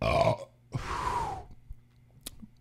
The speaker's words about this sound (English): burps happening. That's fine. Did I burp on camera? Well, technically, yes